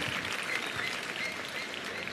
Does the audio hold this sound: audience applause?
yes